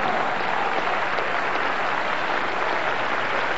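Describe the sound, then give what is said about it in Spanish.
A church audience applauds: steady, dense clapping from many hands that holds at an even, loud level for the whole stretch, with no voices standing out. “Denle un aplauso al Cristo de la gloria esta noche.”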